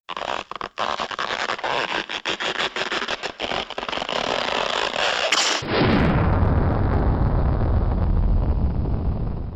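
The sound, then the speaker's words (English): A spaceship being catapulted into space in a narrated story, rendered as a launch effect: a run of crackling, rumbling bursts gives way to a sudden, heavy, sustained roar that swells and stays loud. “The ship was catapulted into space.”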